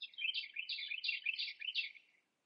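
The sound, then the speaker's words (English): Birds singing along a riverbank: quick, high chirping phrases in about five bursts, faint and heard alone before the sound cuts off. “And along the bank, the birds are singing”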